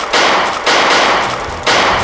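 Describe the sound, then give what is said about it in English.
Gunfire from a firing-squad execution of a female spy: three loud, noisy blasts at roughly even intervals, each ringing on briefly before cutting off, with no voices. “Now, with the shooting.”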